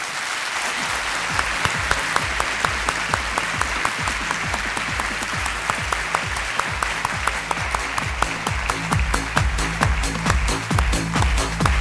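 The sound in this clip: An audience applauds to welcome two guests onto the stage. The dense, continuous clapping holds at a steady level for about twelve seconds, with no talking.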